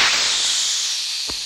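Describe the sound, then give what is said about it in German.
Hydrogen gas hisses steadily out of an opened balloon envelope: a loud, broad rushing hiss that fades only slightly, with a brief low thump near the end. “Die Ballonhülle öffnete sich, Wasserstoffgas strömte aus.”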